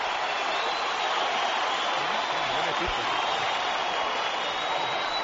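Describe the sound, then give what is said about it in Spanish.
Stadium crowd at a football match giving an ovation for Cristiano, a continuous dense roar of many voices and hands held at an even level, with a male voice faintly underneath. “Y mira, escuchar un momento. Esta ovación es para Cristiano,”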